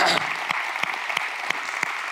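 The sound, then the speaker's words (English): A church audience applauds, with soft, fairly regular clapping that pulses in a steady rhythm for about two seconds. “I want to thank you and give you a great big round of applause. Let's just do that right now.”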